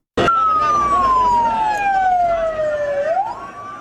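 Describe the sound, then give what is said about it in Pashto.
An ambulance siren as ambulances carry the wounded to hospitals after an attack on a university in northwest Pakistan: one loud wail that starts abruptly, falls steadily in pitch over about three seconds, then swings back up. “امبولانس های حامل زخمی ها راهی شفاخانه ها شدند.”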